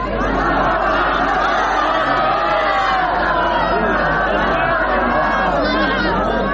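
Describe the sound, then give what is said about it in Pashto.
Dense crowd noise from hundreds of people celebrating a ceasefire week at Karzai stadium in Lashkar Gah, Helmand, with steady overlapping chatter and occasional shouts running loud and unbroken throughout. “د لشکرګاه په کرزینو مې لوبغالي کې سلګونه کسان د تاوتریخوالي د کمښت د اونۍ جشن ته راوتلي دي. دوی په ډیر هیجان او خوشحالۍ ویناوې، ګډا او اترونه کوي”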